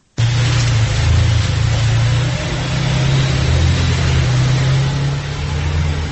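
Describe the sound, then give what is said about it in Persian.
A taxi stuck in snow on a Dushanbe street spins its wheels, giving a loud, continuous, hissing roar over a low engine drone whose tone shifts partway through. “این صدای لغزش چرخ تاکسی است که در کوچه تونسی شهر دوشنبه در مانده است و چند نفر مسافر آن را تله میکنند.”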